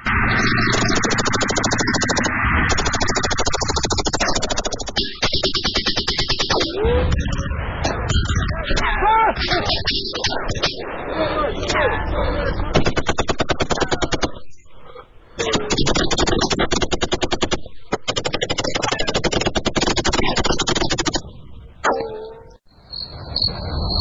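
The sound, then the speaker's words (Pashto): Gunfire from a police shootout with armed smugglers stopping a long line of vehicles in a Pashto radio drama: rapid, crackling bursts of shots come in dense volleys for long stretches, broken by brief pauses and mixed with voices. “زلمی خانه، د دوی لخوا ډزې ودرېدې.”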